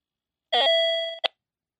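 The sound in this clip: An electronic alarm beeps from a clock running on dying batteries. One sustained tone lasts under a second, then a short blip follows. It is fairly faint and sounds alone.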